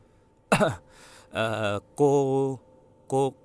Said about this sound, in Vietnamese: Ông lúc này mới đặt bát đũa xuống, ho khan mấy tiếng.